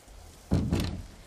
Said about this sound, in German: Er steht am Fenster, als sich hinter ihm plötzlich langsam die Tür öffnet und eine Gestalt ins Zimmer tritt.